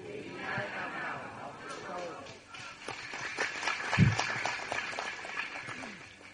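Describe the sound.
Audience clapping during a Vietnamese talk, heard as scattered bursts of claps that thicken in the second half, mixed with a speaking voice throughout.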